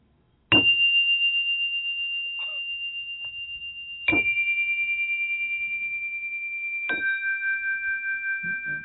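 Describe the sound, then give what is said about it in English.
Small relaxing chimes ring out in three separate strikes, each a clear bright tone that lingers and fades slowly into the next, heard alone with no talk. “those my little chimes to give me a little bit of a relaxation, so I can calm down.”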